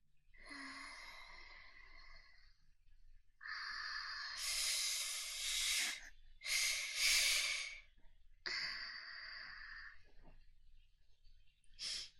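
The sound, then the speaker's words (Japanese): A few deep, breathy inhales and exhales taken to calm down, each a soft rushing breath with a slight voiced tone, separated by short pauses, with no talking. “ちょっと一旦深呼吸するかな。 落ち着いてからね。”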